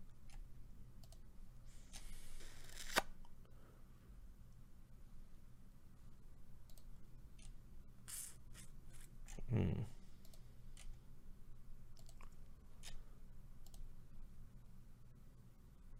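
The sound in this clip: Faint computer mouse clicks: one sharp click stands out among a few softer ticks, all over a low, steady background hum.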